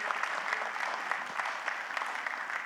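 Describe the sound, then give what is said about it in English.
An audience in a church applauds to welcome guest speakers, producing continuous clapping with individual sharp claps standing out, at a steady, moderate level throughout. “So please give a nice, warm welcome to Paolo and Ricardo.”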